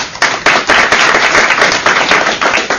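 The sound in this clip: Dense, loud applause from a conference audience welcoming a panel on transparency worldwide, many sharp claps blending into a continuous rattling wash.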